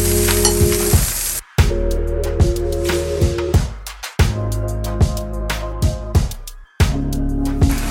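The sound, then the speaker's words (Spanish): Butter and oil sizzling in a hot frying pan as the fat is spread around: a loud, dense, crackling hiss that runs steadily, cut off briefly a few times, with occasional stirring scrapes. “Vamos a poner aceite, que ya tengo en mi sartén, mantequilla, esté bien caliente, lo esparcimos.”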